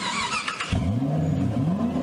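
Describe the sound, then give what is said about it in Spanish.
A car engine starting: a short burst of rough cranking noise, then the engine catches and revs, its hum climbing and wavering in pitch and staying loud to the end. “¡Arranca! ¡Arranca! Siempre arranca con Baternor.”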